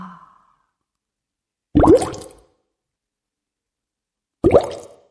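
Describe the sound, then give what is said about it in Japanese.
Two separate breaths out, each a loud, breathy exhale lasting about half a second, with long silent pauses before and between them. “Breathe out. 吐いて。はい。ゆっくり。もう一度。”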